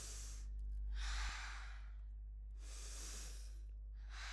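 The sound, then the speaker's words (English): Slow, audible breaths in and out from a person doing a standing breathing exercise: two long, airy rushes of breath with quiet gaps between them, then the start of a third breath. “Now breathe in and raise your hands above your head. Breathe out and put your hands down.”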